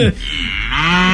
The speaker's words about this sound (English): This cow's so alive.